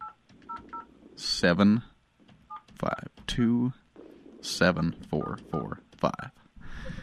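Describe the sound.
Touch-tone dialling of a telephone number: a series of short, clean electronic beeps in quick groups, alternating with bursts of people talking.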